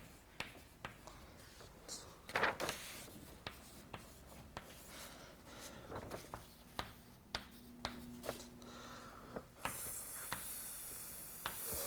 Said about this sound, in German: Okay, wir schreiben den Term mal ab.